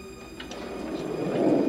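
Elevator doors slide closed with a low rumbling whoosh that builds steadily louder over under two seconds, with no voices.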